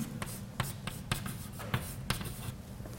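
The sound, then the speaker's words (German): Writing on a board produces a series of short, scratchy strokes at a fairly steady pace. The strokes are faint and heard alone, with no talk. “Schreibe ich mal hin.”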